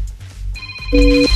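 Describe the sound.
A telephone call rings after a number is dialed: a steady line tone comes in, then a louder two-tone ringing burst sounds near the end, over a low hum.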